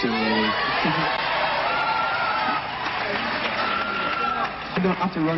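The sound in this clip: A large crowd cheers and shouts to welcome sprinter Ben Johnson back in Toronto. The roar is dense and steady, with a man's voice speaking over it throughout.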